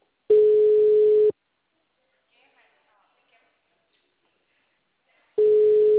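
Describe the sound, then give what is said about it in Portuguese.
Ringing tone of an outgoing telephone call: two steady, mid-pitched electronic tones about one second long, separated by roughly four seconds of near silence with a few faint clicks. “Atende essa ligação pra mim. É eu que tô ligando.”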